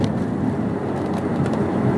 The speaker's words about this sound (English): if you're hearing like some road noise, I'm sure it's a little noisier now that I'm back in my car, the Cadillac